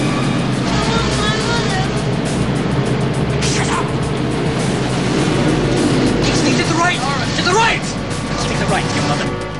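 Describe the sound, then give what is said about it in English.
A bus turning off a highway onto a slip road gives a steady, loud rumble of engine and road noise that fills the whole stretch with little change. “The bus turns off the highway onto the slip road.”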